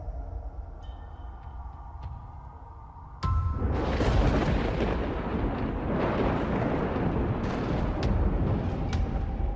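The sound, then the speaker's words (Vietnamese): Thunder rumbling with lightning: a quiet, hissy stretch breaks into a sudden loud crack, followed by a long, heavy, rolling rumble that stays loud to the end. “Đúng lúc ở bên ngoài trời, tiếng sấm đì đùng vang lên, kèm theo một tia sét chiếu xuống, sáng rực cả bầu trời.”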